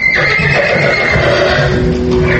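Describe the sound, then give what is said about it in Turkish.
A horse neighs as a sound effect in a narrated story about a man riding out into the street. The whinny is loud and drawn out, with a wavering pitch. “Ol günleriň birinde at minip köçe çykýar.”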